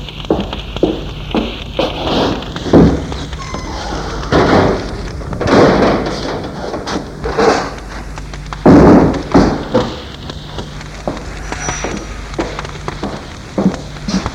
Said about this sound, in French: La tante va fermer les volets de la chambre.